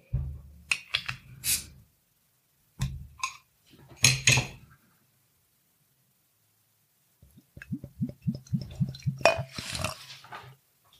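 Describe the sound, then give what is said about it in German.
A bottle of 5.0% beer brewed with water, barley malt and hops is opened. A few sharp clicks and clinks are followed by a pause and then a quick series of gurgling pulses. “Ja, dann mache ich die Flasche mal auf.”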